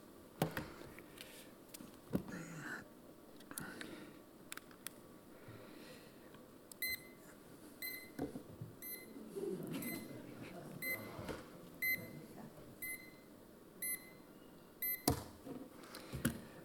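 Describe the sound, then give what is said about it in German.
An alarm clock beeping: faint, high electronic beeps repeating in a steady rhythm over a low background, growing more regular toward the end. “Ich nehme an, bei den meisten von uns sind Töne dieser Art, ist das Summen, Piepen oder Rasseln des Weckers”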